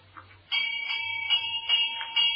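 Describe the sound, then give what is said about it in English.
A doorbell chimes at the front door of a large country house on a foggy day, with clear ringing tones struck a few times in a row and sustained between strikes. “She ran up the steps, carrying her weekend case, and rang the doorbell.”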